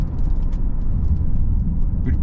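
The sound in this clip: A car driving on dry asphalt after the rain has stopped, producing a steady, loud low rumble of engine and tyre noise throughout with no clear breaks.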